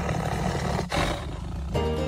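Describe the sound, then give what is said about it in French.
A tiger growls, a deep, rough and loud rumbling roar that runs almost without a break, with two brief dips before it swells again. “Voilà, Feulement de tigre pour se mettre dans l'atmosphère de Fauve, le dernier roman de Mélissa d'Acosta, paru chez Albin Michel.”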